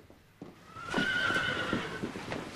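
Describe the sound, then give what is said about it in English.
A horse in a stable gives a long, loud whinny with a wavering high pitch, while soft hoof clops and shuffling sounds run beneath it. “They walk into the stables together, rubbing the nose of a horse as they pass.”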